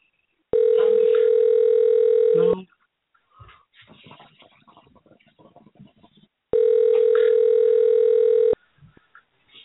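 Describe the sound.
A telephone ringback tone sounds on an unanswered call: two long, steady tones at one pitch, each about two seconds, with quiet talk in the gap between them.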